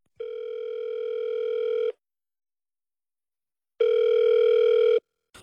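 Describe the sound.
A telephone line ringing while a call connects: two long, steady, even-pitched ring tones separated by a silent gap, loud and clear with no voices.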